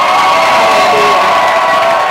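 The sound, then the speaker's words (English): A church audience applauds and cheers loudly for Jesus, a continuous roar of clapping, shouts and whoops that stays loud and unbroken throughout. “I want you to give a resounding applause to Jesus.”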